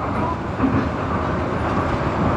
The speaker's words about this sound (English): Attention please, the train is about to board.